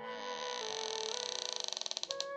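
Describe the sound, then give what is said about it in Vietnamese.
A room door creaking open by itself: one long, drawn-out, fairly loud creak that breaks into distinct, slowing ticks toward the end. “Vị Vương Sư Thúc này vừa dứt lời, cửa phòng tự động mở ra”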